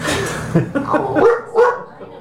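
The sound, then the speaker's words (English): A guard dog barks several times in short, loud bursts, the barks spaced unevenly and coming alone with no talk over them. “All right, you loudmouth. Don't make me pause the recording. This good guard dog.”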